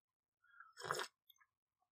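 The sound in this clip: A single sip of coffee, drawn in as a short noisy slurp lasting about a quarter second, followed by a few faint wet clicks. Quiet and alone, with no voices.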